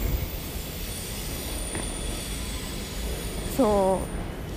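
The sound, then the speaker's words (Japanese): A freight train runs past on rails with a steady, dense rumble throughout, and a brief high-pitched wheel squeal rings out near the end. “見たことない音の電車が走ってる、貨物列車かな”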